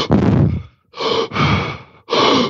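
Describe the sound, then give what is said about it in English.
Deep, quick breaths of a breathing-method exercise: four loud, airy breaths in fast succession, each lasting about half a second, with brief gaps between them and no talk. “30 deep, quick breaths. And it sounds like this,”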